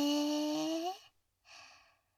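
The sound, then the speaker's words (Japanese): A patient breathes on instruction: a sustained, slightly rising tone cuts off, and after a short silence a single soft, airy breath follows and fades. “ちょっと止めて。はい、吐いて。はい、吸って。”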